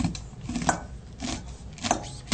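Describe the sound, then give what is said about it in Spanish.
A knife slices kernels off a corn cob with downward strokes, giving a few crisp, rasping cuts in a fairly steady rhythm. “Esto lo vamos a dejar abajo, para que no moleste, y lo vamos a cortar de esta manera, siempre hacia abajo.”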